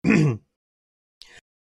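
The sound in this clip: A man clears his throat with a short, rough guttural grunt. After a pause comes a faint, brief second rasp.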